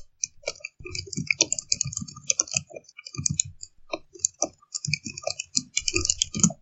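Many quick, light clicks from typing on a computer keyboard come in uneven bursts of taps. The typing is fairly quiet and no one speaks.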